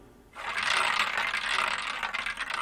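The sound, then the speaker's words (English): A record player's needle stuck in the final groove at the end of a record gives a continuous scratchy, hissing crackle with faint, regular ticking as the disc keeps turning. “the needle comes to the end of the record and gets stuck in that final groove”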